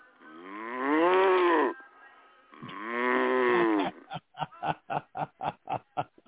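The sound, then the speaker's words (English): A cow moos twice in long, loud, drawn-out low calls of over a second each, followed by a rapid string of short, clipped calls in an even rhythm. “me and my cow, Patches”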